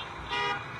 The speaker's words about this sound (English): Throngs of onlookers cheered, drivers honked their horns.